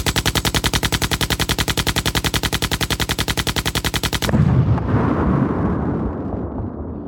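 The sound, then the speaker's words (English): Machine gun drum roll sound effect used while picking a giveaway winner: many rapid, evenly spaced loud bursts rattle for about four seconds, then end in a heavy booming blast that rumbles and slowly fades. “Here we go with our special custom machine gun drum roll, picking the winner now.”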